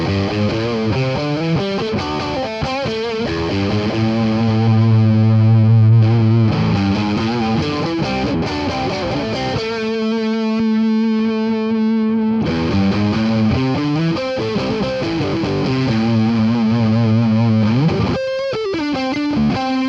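Distorted electric guitar played on intermediate pickup positions, with loud sustained chords and riffs carrying a chorus-like shimmer. It plays continuously, with a held passage in the middle and several chord changes.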